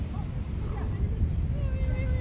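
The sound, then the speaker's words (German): Stormy sea with huge waves and strong wind: a dense, steady roar of surf and wind noise that fills the whole clip without a break. “Die See wird urplötzlich ganz furchtbar stürmisch. Es ist ein riesiger Wellengang. Es stürmt ganz schrecklich.”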